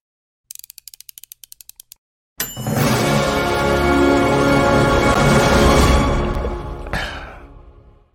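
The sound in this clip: A show's intro jingle for a running-shoe review: a rapid run of crisp mechanical ticks, then a brief gap, then a loud, dense swell of sound that holds for several seconds before fading out.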